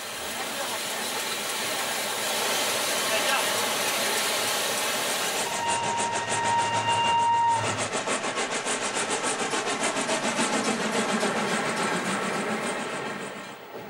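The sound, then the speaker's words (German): Historic steam locomotive burning Venezuelan coal on the Siena–Grosseto line in Tuscany: a loud, steady hissing roar gives way to fast, regular chuffing beats that continue to the end. “Sie benutzen Kohle aus Venezuela. Die italienische Kohle ist ihnen nicht gut genug. Die Lok gehört der Associazione Toscana Treni Storici, Italvapore genannt.”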